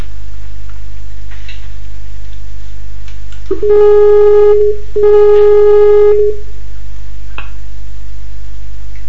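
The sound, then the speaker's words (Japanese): Skype call tone sounding while a dropped call is reconnected: two long, steady mid-pitched beeps separated by a short gap, over a constant low electrical hum. “一回スカイプ切ってもう一度つなぎ直しますんで。”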